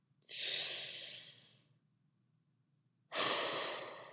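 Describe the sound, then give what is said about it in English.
Breathing in through the nose and out through the mouth: two long, airy hissing breaths, each rising quickly and fading slowly, separated by a stretch of near silence. “Breathe. In through the nose. Out through the mouth. Again.”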